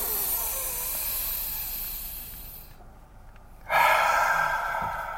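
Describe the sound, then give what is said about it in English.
A deep human breath, heard first as a steady airy hiss, then a short silence while it is held, then a loud, strong hissing exhale. “All right, three breaths. Very good. Three deep breaths.”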